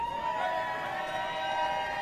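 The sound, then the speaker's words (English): Crowd cheering at a winter race medal ceremony as medals are handed to the top finishers: a dense, steady wash of voices with sustained whoops running through the whole moment. “The crowd cheers like he's a rock star.”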